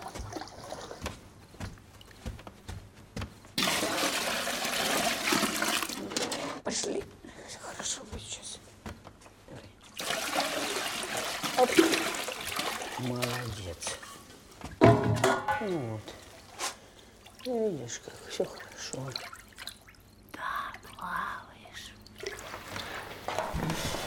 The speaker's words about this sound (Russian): Она принесла ночвы, набрала в них воду и запустила туда рыбу.